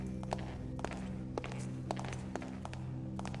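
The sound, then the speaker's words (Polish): Footsteps on a marble floor in a stealth video game, hard clicking steps at an even, unhurried pace over a low background hum. “Jeśli chodzę po dywanie, strażnicy mnie nie usłyszą, ponieważ dywan jest miękki i tłumi moje kroki, ale jeśli wejdę na marmurową posadzkę,”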